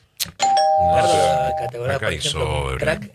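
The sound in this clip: A radio time signal tone sounds as a single steady high beep lasting about a second, with people talking over and after it.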